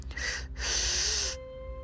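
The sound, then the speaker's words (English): Two deep breaths drawn in through the mouth during a guided breathing exercise. A short airy inhale is followed by a longer, louder one, both rushing and hiss-like, with no talking. “Let's do it. 2 breaths in through our mouth.”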